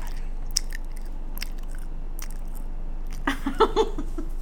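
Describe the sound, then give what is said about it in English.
A bag of vegan marshmallows crinkles. Scattered faint crackling ticks lead to a short burst of louder crinkling near the end. “Wow, that is really loud, that bag.”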